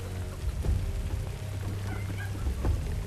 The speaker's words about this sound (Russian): Ночь, поляна. Люди мокнут под дождем.